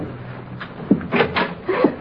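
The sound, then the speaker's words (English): A bedroom door being opened: a few short clicks and light knocks, then a couple of brief creaking scrapes, fairly quiet and spread unevenly over two seconds. “There's a light under that door over there. Open the door.”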